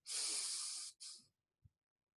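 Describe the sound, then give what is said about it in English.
A deep rushing inhalation lasting nearly a second, topped off by a brief second pull of air, then silence while the breath is held, broken only by one faint low click. “take a deep breath in and then hold it. So you go,”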